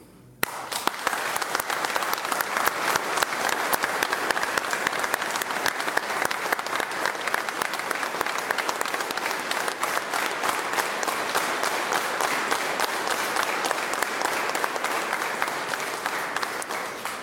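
Pilgrims give a long round of steady, dense applause to greet radio listeners. The clapping starts abruptly and keeps an even, sustained level until it tapers slightly at the very end.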